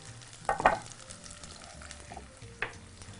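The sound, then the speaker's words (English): Zucchini sizzling in a frying pan as it browns lightly, a low, steady frying hiss broken by a few louder bursts of stirring clatter. “And just continue to cook our zucchinis. Just want to get a little golden brown. don't want to go too much. Just, just a little bit of caramelization.”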